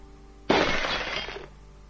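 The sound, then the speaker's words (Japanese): Window glass shatters in one sudden loud crash, a bright crackling spray of breaking shards that lasts about a second and then stops. “それがですね、ふーっと消えた時に小さい女の子がさっと見えてガラスがバリンと割れましたね。”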